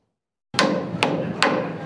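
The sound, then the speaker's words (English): Hammer blows on a house building site: after a moment of silence come three sharp, loud strikes at an even pace, each followed by a brief ringing decay. “With each swing of the hammer and each cut of the saw, a new neighborhood takes shape in Southeast Raleigh”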